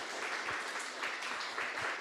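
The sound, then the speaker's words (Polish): Audience applause at the close of a meeting: many hands clapping in a soft, even patter with a few slightly stronger bursts, fairly faint throughout. “Myślę, że należą się wielkie brawa.”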